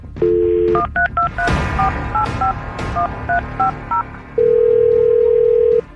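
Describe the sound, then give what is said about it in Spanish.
A landline phone dials a number for a prank call. A short steady dial tone comes first, then a quick string of about ten beeping keypad tones, and finally a long, loud, steady ring tone. “Vamos a marcar.”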